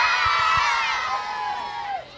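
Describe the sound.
Audience cheering at a game show where a prize, a 25-inch television, is won: a loud, sustained wash of excited voices and whoops, with a long falling cry near the end.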